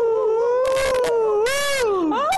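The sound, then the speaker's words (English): A human voice imitates a coyote howl with long, wavering, sustained tones that glide in pitch and swoop again near the end. “she would feel the impulse to sing that wild song of the west, which means so much to coyotes.”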